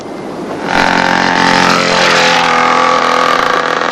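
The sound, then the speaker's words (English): A dirt bike engine rushes in close outside a hotel, jumping to a loud, sustained buzzing roar within the first second and holding steady with a rising high whine as it sweeps past. “a dirt bike nearly mows them down.”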